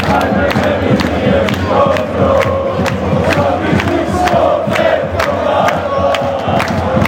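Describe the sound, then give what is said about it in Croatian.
Football fans singing and chanting in a stadium after their club's home win, about ten thousand supporters. Massed voices form a dense, continuous roar that stays loud and steady throughout. “10.000 Dinamovih navijača pjevalo je modrima.”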